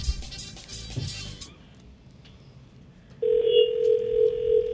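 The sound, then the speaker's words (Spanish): A steady telephone dial tone on a long-distance call to Puerto Plata starts abruptly after a short noisy burst and a quiet gap. It then holds one constant pitch, clear and unbroken, through to the end. “Cuidado, a Puerto Plata, es lejos esta llamada.”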